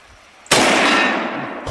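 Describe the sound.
A single loud gunshot goes off in a hunting video game set in snow. It breaks a quiet stretch with a sharp crack, then trails off in a long, bright, rumbling decay.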